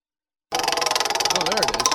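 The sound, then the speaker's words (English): A spinning question wheel on a sports radio show, a wheel said to need oil, clicks in a fast, even ticking rhythm, with a brief wavering squeak partway through. “Wonder why the wheels. We needed some WD-40 in the wheel. Forgot to bring it in.”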